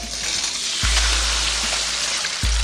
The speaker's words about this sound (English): You know, it's got that egg. This is your brain. This is drugs. And then they fry it.